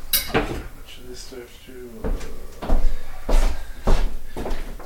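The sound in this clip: Clatter of a saucepan being pulled out of a kitchen cupboard and set on the stove, with a few knocks and bangs of varying loudness and brief voices in between.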